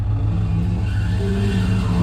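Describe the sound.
Car engine drones steadily while driving toward a valley, a loud, even low rumble that holds for about two seconds with no voices.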